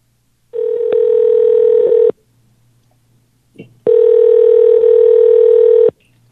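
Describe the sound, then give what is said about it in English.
A telephone dial tone sounds as two long, steady, buzzy tones separated by a silent gap, with a brief click just before the second tone, heard on a call that was misdialed. “I have to try dialing that number again. I must have misdialed.”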